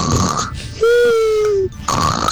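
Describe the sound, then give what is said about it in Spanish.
A person snoring: rough, breathy snorts at the start and end frame a sustained, wheezy, whistle-like tone in the middle, fairly loud and with no talk over it. “Pues tú roncas muy bonito, así con ese... O sea, no está tan mal, no está tan mal.”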